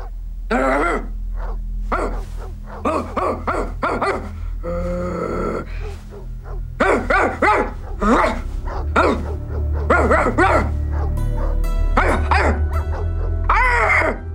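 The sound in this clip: A woman's voice imitating a barking dog, with many short yapping barks and growly yips in quick bursts over a low, steady hum.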